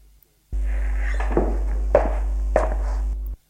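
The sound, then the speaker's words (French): A man's footsteps as he leaves an apartment: three dull thuds land at an even pace over a steady, loud low hum that begins and ends abruptly. “Allez, je me tire. Et il quitte l'appartement.”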